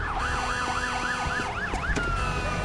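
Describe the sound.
Fire truck sirens wail in a fast, repeating rise-and-fall sweep, then settle into a steadier tone near the end.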